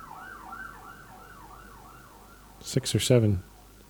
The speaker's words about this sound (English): Anyway, any emergency vehicles moving anywhere at this moment is not a good thing to be hearing at all.